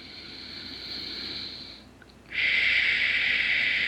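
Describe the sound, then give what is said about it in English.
A deep breath drawn in through the nose, then a short pause and a louder, steady breath let out through the mouth, a breathy hiss heard alone. “So let's take a deep breath and go right into our belly. And as we take this deep breath,”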